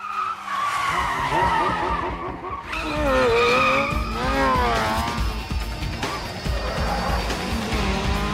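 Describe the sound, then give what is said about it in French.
Revving engine of a Triumph Speed Triple motorcycle with a four-cylinder sound, from a film chase scene: a loud, continuous high whine that swoops up and down in pitch through repeated gear changes, with screeching, skid-like tones. “C'est le son d'un 4 cylindres. Oui. Mais c'est une Triumph Speed Trip.”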